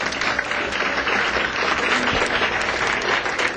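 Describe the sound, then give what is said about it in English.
Audience applause at a live jazz concert featuring Art Blakey and the Jazz Messengers: a full, continuous round of clapping that holds at an even level throughout. “How about a nice hand from our audience here?”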